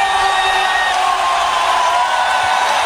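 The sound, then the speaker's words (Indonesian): Crowd cheering and clapping at a football match viewing party: a continuous loud roar of voices and hands, with a few sustained tonal notes riding over the steady din. “Pertandingan besar dimulai, suara-sorak tepuk tangan dan teriakan menyatu dalam suasana nonton bareng.”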